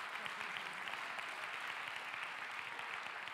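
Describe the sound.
Weak, listless applause from a church audience: a steady, dense patter of many hands clapping without pause and with no voices over it.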